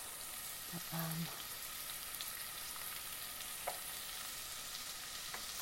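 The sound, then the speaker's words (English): Faint, steady sizzle of chopped onion frying in a pan, a soft continuous crackle with a few small pops scattered through. “Missed a bit of onion there, just get that in. And it says to cook it for sort of 5 minutes-ish.”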